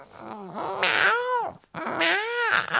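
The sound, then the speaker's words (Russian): A cat growling angrily while tearing meat with teeth and paws, heard as two long, wavering, tonal cries separated by a brief pause. “начал рвать мясо и зубами, и лапами, а сам мурчит, будто сердится.”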